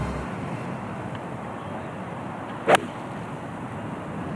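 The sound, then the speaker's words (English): A single sharp crack of a golf shot struck by Chris Wood on the 10th fairway, a par 4 at the Open, cutting briefly through a steady outdoor hiss that continues before and after. “Chris Wood, 10th fairway, has found another fairway. It's a lovely setup, good swing.”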